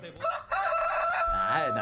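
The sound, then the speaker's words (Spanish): A purebred rooster crows in one long, loud, harmonic call that holds steady and then wavers and dips toward the end. “Ese es el gallo.”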